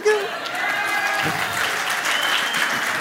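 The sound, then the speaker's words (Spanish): Audience applause, a dense, even wash of clapping that holds at steady loudness for about three seconds. “Tú has practicado y te quieren aplaudir y todo.”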